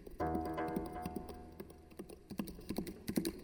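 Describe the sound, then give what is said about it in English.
Keyboard typing: irregular, fairly faint clicks and taps follow one another throughout, with a sustained tonal hum during the first second. “He typed a letter to the county sheriff, comma,”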